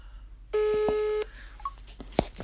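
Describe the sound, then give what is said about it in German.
An iPhone places a call triggered by double-tapping its back: one steady electronic tone lasting under a second, with soft taps, followed by a brief faint beep. “Und so kann man blitzschnell eine Person über Doppeltippen auf die iPhone-Rückseite anrufen.”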